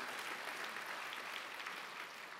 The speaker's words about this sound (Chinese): 我真的为你自己再鼓掌一下